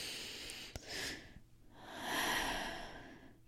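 A person takes a couple of slow, deep, calming breaths, each a soft, breathy rush that swells and fades, with quiet pauses between.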